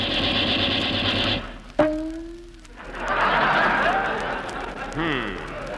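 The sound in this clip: A machine-gun sound effect in a radio comedy show staged at a Marine Corps air station: a rapid mechanical rattle for about a second and a half, then voices talking.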